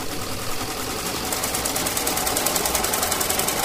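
Sewing machine running in a tailor's workshop, a fast, continuous mechanical whir and rattle with a steady rapid rhythm that holds throughout and grows slightly louder toward the end.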